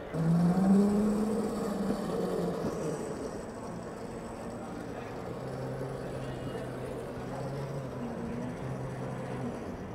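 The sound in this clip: A car engine drones in a racing video game, a steady hum whose tones shift up and down in pitch over a soft continuous background.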